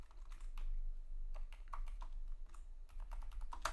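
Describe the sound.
Rapid, irregular keystrokes on a computer keyboard as Hebrew words are typed out: many sharp clicks arriving in uneven bursts with short pauses between them, with no voices.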